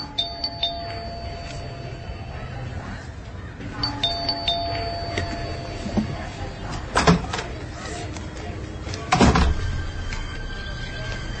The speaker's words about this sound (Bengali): আর তখনই ডোরবেল বেজে উঠল।